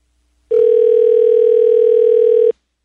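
A single ringback tone on an outgoing telephone call: one steady, mid-pitched electronic tone that holds for about two seconds, then stops, with no voices over it.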